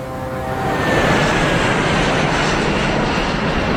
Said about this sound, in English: Airbus, Brisbane via Sydney. How close are you to the end of the runway? Oh, just over the fence. Is that the runway there? Yeah.